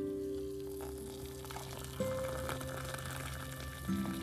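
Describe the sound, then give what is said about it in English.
Water poured from a small red teapot, a faint, steady trickle that runs for several seconds. “And my cute little red little teapot. I've had this for the last 6 years.”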